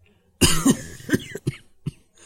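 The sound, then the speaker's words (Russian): A man coughs into a handkerchief, giving a short run of rough, raspy coughs: one strong double cough first, then a few fainter single coughs spaced apart, with no talking. “Мистер По покашлял в платок и одновременно взглянул на часы.”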